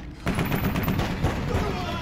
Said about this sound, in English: I thought there would be no guns in the kung fu movie.